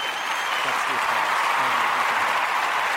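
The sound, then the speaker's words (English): Café audience applauds at a spooky story night with continuous, even clapping throughout, with voices faintly mixed underneath. “I demand my applause. We got 12 seconds of applause.”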